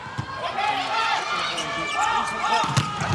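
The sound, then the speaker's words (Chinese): Ball strikes during a volleyball match, second set, with China serving: a few sharp thumps over steady crowd noise and voices. “中国队来发球”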